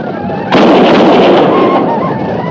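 A volley of gunfire from soldiers defending a frontier fort against an attack: after a brief lull, a sudden loud crackling burst of many shots that rolls on for about a second before tapering off.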